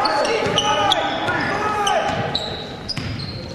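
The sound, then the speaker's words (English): A basketball is dribbled between the legs during a game, giving sharp repeated bounces. Sneaker squeaks and steady crowd noise sound throughout, with voices in the background. “Left-hand dribble between the back, between the leg dribble.”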